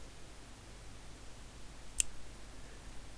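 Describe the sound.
A finger click during a hypnotic count: one sharp, isolated snap over a faint, steady background hiss.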